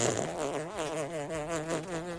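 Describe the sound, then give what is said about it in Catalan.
A fart sound effect: a buzzy, sputtering low tone that wavers steadily in pitch for about two seconds, heard alone without talk. “Saps com vull acabar aquesta secció? No ho sé. Amb un pet.”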